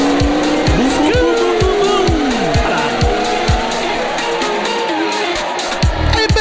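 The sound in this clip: A Ferrari race car accelerates hard off the line at a race start with its engine on the rev limiter. The loud, continuous engine note repeatedly climbs and drops through gear changes, with squealing tires throughout.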